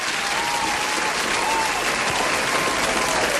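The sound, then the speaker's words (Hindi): Dense, steady applause from a crowd cheering a champion, a continuous even wash of many hands clapping at constant loudness throughout. “Finally किसी के लिए तालियां बजाने का मौका मिला मुझे”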